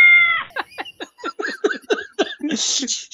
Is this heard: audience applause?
no